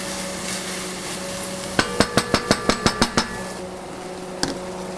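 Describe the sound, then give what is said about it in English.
Stirring of saffron threads, onions and garlic in a cooking pot: a quick run of about nine sharp knocks from the utensil against the pot, then one more knock later, over a steady low hiss. “so just toss the whole saffron threads in, and I'm stirring around with the onions and garlic.”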